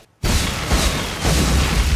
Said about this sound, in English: An explosion? My favourite sort.